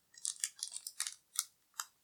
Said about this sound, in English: Do you cut the pack? I think you got to cut it. I think you got to cut it.